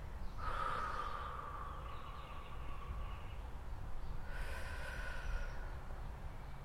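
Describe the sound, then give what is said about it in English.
A deep breath drawn in and then let out, heard as two long, airy swells of breath noise, the first lasting a few seconds and the second shorter, with no talking. “So when I think I'm going to worry or I get a little nervous, I breathe.”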